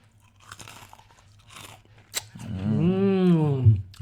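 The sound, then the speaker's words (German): Crunching and chewing of Russisch Brot letter biscuits gives a few crisp, irregular crackles, and a drawn-out voiced hum with wavering pitch follows. “Hier nochmal ein B aus unserem russisch Brot.”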